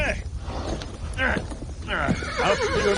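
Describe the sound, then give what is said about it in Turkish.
A horse neighs and whinnies while struggling with its legs stuck in sand, with shuffling hoof sounds and a voice speaking over it. “Hay aksi, nasıl gömüldü ayaklarını kuma? Hadi hadi kalk, atsana. Neden çıkmıyor bu at kumun içinden?”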